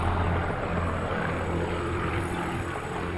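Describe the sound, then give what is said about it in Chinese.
Spitfire fighter plane engines drone in a low, continuous propeller rumble that stays fairly steady, easing off only slightly toward the end. “喷火式的声音逐渐消失”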